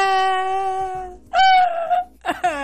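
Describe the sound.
A voice imitates a group of men wailing together: a long, sustained moaning tone, then a louder wavering wail, then a shorter final cry, all drawn-out and mournful.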